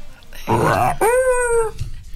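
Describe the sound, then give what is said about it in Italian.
A person's voice imitating the call of the yellow-bellied toad: two loud, drawn-out, howling, groaning vocal sounds in succession, the second a steadier, more tonal wail, with no other talking. “Allora, adesso mi fate il verso del rospo ululone.”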